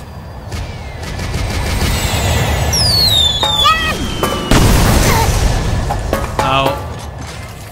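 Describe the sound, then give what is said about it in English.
Bombs exploding in a video game: dense crackling bursts and booms over a constant rumbling din, with a falling whistle and one heavy blast midway. “Da kommen schon wieder Bomben, genau in dem Moment, wo ich...”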